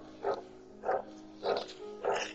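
Dog barking: four evenly spaced barks, fairly faint, over a steady low hum with no talk.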